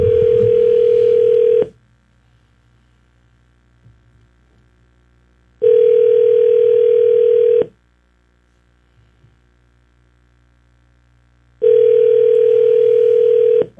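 A telephone ringback tone plays while a call waits to be answered. There are three long, steady electronic tones, each lasting under two seconds, spaced evenly with near-silent gaps between them.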